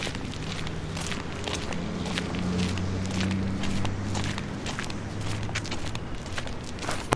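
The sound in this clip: Footsteps of someone walking: many even, crisp steps at a steady pace, heard over a low droning tone.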